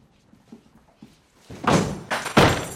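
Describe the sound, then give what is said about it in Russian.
A door being broken open with a shoulder: two loud, heavy thuds of impact against the wood, preceded by a few faint knocks and bumps. “Пеппа выбил дверь плечом и застыл.”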